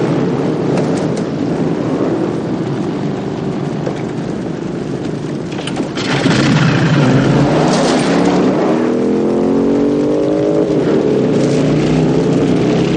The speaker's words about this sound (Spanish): Se monta y cuando va a ponerse el casco se lo piensa y lo arroja contra el suelo. Arranca y sin la protección se marcha del lugar que queda envuelto en llamas.